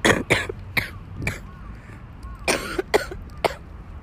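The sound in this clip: A run of several short, dry coughs from a person with cough-variant asthma, irregularly spaced and fairly faint, in two loose clusters with a quiet gap between them.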